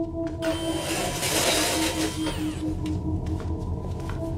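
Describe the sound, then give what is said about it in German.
Roller blinds being lowered, a steady mechanical whirring and rattling with a sustained hum that runs through the whole clip at a fairly even level. “Achtung, ich lasse jetzt die Rollos herunter.”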